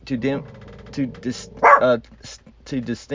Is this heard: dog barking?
yes